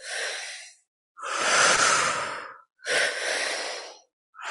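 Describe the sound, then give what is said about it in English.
Forceful breathing through the mouth in a tri-active breathwork pattern, two breaths in and one out. Loud, airy rushes of breath come in long bursts separated by brief silences, with no talking. “So it's into the belly, up into the chest, out through the mouth. Okay, so it sounds like this.”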